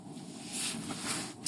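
A car is being driven, giving a steady, low hum of road and wind noise that holds at an even level with a slight swell in the middle.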